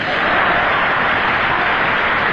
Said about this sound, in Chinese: 谢谢。哎，这点您别有偏心眼儿。那个楼上的那个掌声稍微的差了一点。